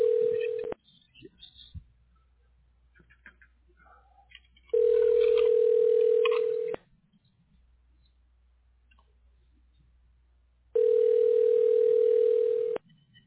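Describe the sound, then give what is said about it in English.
Steady, low telephone dial tone in three separate stretches, each loud and unwavering, with quiet gaps between them holding only faint clicks and handling noises. “Let me see here. Get my dialing first.”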